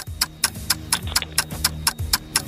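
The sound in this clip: A ticking clock serves as a ten-second answer countdown in a radio quiz, with crisp, evenly spaced ticks at about four per second in a steady, unbroken rhythm.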